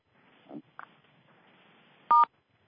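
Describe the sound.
Telephone keypad tones are pressed to mute callers on a conference line. A couple of soft, short tones are followed by one louder, steady two-pitch beep over a faint hiss, with no talking.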